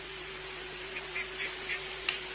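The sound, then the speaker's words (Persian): Ducks on a pond give about five short, faint quacks spaced across the second half, over a steady low hum. No voices are heard. “این طرف دست چپ یه برکه آب پر از مرغابی،”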